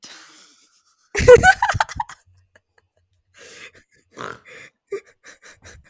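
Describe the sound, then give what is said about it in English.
A person snorts suddenly, a noisy nasal burst broken into short, laugh-like pulses, followed by quiet and a few faint sounds. “Did you just snort?”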